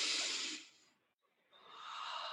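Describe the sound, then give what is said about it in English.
A deep breath: two soft, airy rushes of breath, separated by a brief silence. “So let's take a deep breath in.”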